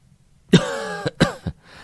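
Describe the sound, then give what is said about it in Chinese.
A man coughs after choking on cigarette smoke: a few harsh coughs in quick succession. The first is the longest and most voiced, followed by shorter, sharper bursts. “张贵刚忍不住大笑起来，接着抽了两口烟，被呛得连连咳嗽”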